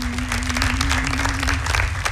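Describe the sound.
Steady applause from a group of people, a dense, even patter of many hands clapping together without a break, carrying on at moderate loudness for the whole stretch.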